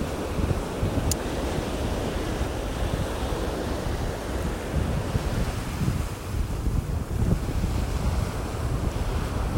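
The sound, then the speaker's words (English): Waves wash onto a sandy beach in cold water, making a continuous, rushing surf that swells and eases. Gusts of wind buffet the microphone throughout, and nobody speaks. “The water's a little bit cold still for paddling and plodging, but it's still really lovely to feel the sand beneath my feet.”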